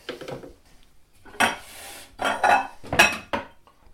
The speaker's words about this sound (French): voilà, une fois que c'est fait, je vais détailler le, saumon en petits morceaux. Je vais le réserver.